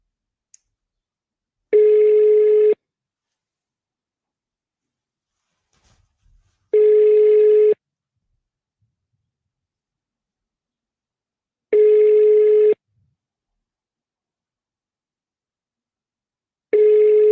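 Ringback tone while calling a number: four steady tones of about one second each, spaced by long, even stretches of silence.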